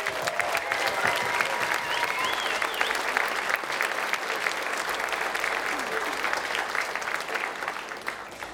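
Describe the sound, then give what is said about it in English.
Concert audience at a folk band's show applauding the sound engineer: dense, sustained clapping that stays loud and even throughout, with a few voices and whistles rising over it. “Please give a big applause to Christian Albertsen.”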